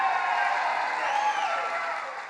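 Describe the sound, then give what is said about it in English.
A crowd at a political rally applauds and cheers in a sustained, even roar with drawn-out voices mixed in, easing slightly toward the end. “As disturbing as the comment itself, the nodding heads and that applause from the crowd”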